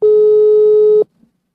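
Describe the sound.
Telephone busy tone from a rejected WhatsApp call: a single steady, loud, mid-pitched beep lasting about a second, followed by silence.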